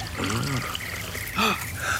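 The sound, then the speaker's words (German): Water pours from a canteen into an icy-cold ring in a short, continuous trickle. Gurgling bursts rise out of it, with a louder splash near the end, all fairly faint. “Ich gieße etwas Wasser aus meiner Feldflasche in diesen Ring.”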